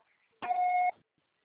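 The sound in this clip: A voicemail system sounds its beep before the message recording starts: one steady electronic tone lasting about half a second, alone in near silence.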